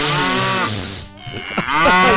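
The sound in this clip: A cow moos twice: a long, loud, resonant low call, a brief pause, then a second drawn-out moo.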